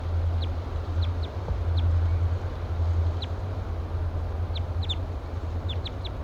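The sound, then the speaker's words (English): A wild bird gives flight calls, many short, high chirps scattered irregularly and clustering toward the end, over a steady low hum. “Giving louder flight calls now. 3-3 responds.”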